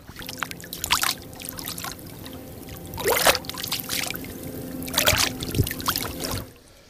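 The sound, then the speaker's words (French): Water lapping at the lakeshore by the port of Port-Valais, soft splashes recurring every couple of seconds over a faint, steady hum. “il faut quand même qu'on reparte un petit peu avec le son, parce que quand je vous dis qu'on est au bord du lac...”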